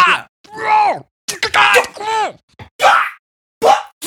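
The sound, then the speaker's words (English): Wordless angry screaming and groaning from one voice, a run of short strained vocal bursts broken by brief pauses. “I don't have, I'm just like, just noisily screaming, right?”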